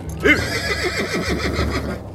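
One long, quavering whinny from horses being fetched out of a cave, with its pitch trembling up and down as it tails off, fairly loud.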